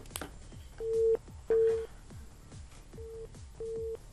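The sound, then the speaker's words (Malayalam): Four steady, same-pitch beeps on a phone line while a caller fails to connect, sounding in two pairs over crackly line noise and clicks. “ഇല്ല ഇല്ല, beep മാത്രം കേട്ടോണ്ടിരിക്കുകയാണ്.”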